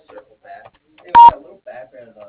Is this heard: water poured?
no

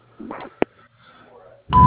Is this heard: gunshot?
no

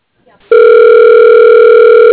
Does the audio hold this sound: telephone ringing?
yes

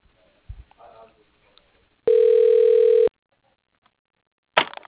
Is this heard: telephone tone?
yes

